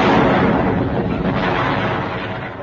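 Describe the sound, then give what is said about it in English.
A loud explosive roar of a barrel of saxophones blowing up, dense and unbroken for its whole length, easing only slightly in loudness toward the end. “I'm tired of this barrel of exploding saxophones.”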